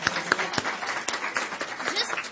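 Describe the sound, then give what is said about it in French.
Audience applause for a presenter at a church gathering, heard as a scattered run of sharp, uneven hand claps of moderate loudness lasting about two seconds. “On peut applaudir encore une fois Audrey Maude.”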